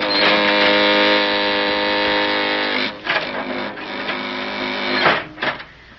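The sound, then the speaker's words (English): An elevator car comes down its shaft with a loud, steady mechanical hum and harmonic whine, then breaks into uneven rumbling and knocks in the second half. “Hey, the elevator's coming down on us.”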